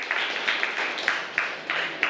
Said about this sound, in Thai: ครับปรบมือให้เพื่อนด้วยนะครับ